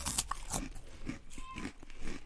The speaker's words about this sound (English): Actually, I got jalapeno Cheetos up here. So good. Let me try these.